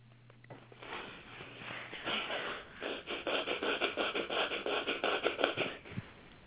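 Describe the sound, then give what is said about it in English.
Rapid breathing in and out through the nose: a quick, rhythmic run of many short rasping breaths that grows louder and steadier, fairly faint overall. “I want you to breathe as fast as you can in and out of your nose and your nose only and do that 5 times.”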